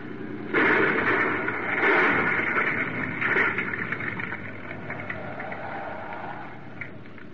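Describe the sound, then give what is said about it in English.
Boat motor running through a pass into ocean swell, a continuous droning, rattling mechanical noise that kicks in abruptly, holds strong, then eases slightly toward the end. “Kill the motor.”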